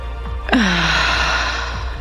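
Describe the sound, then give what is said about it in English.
One long, deep cleansing breath drawn in through the nose, soft and airy, rising smoothly and holding steady over a faint low hum, with no talking. “Taking a nice deep cleansing breath, deep in through the nose.”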